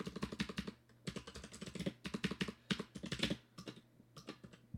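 Typing on a computer keyboard: rapid runs of crisp keystrokes in several bursts separated by short pauses, heard alone.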